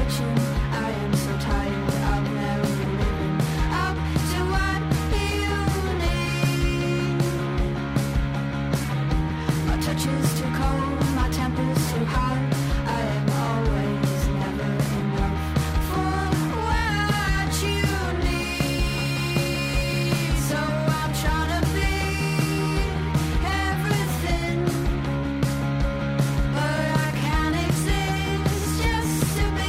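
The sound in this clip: A pop song plays from a recording, dense and full throughout, with a steady driving beat and layered instruments at an even, loud level.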